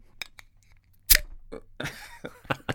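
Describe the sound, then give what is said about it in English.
A can of Coca-Cola being opened: a few small clicks, then a sharp crack, followed by a fizzing hiss broken by more light taps and clicks. “This is me opening a Coca-Cola.”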